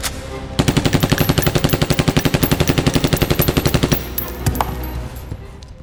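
Automatic carbine gunfire: one long, loud burst of rapid shots in an even, fast rhythm that lasts several seconds, then a few scattered single shots and echoing rattle.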